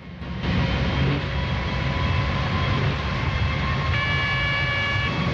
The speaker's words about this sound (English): The centrifuge keeps spinning.